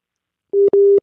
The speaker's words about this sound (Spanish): Ah, se cortó la llamada